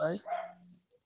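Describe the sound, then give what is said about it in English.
A dog barks in short, sharp bursts, the first loudest and the rest tailing off quickly into quiet. “okay, I think the dog's done.”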